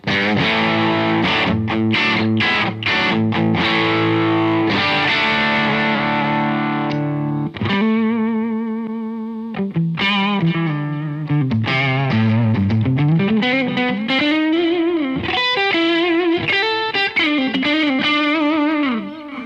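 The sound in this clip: A custom-built electric guitar plays through heavy distortion, loud and continuous. Choppy, ringing chords give way to sustained, buzzing single notes, including an upward slide, with no voices.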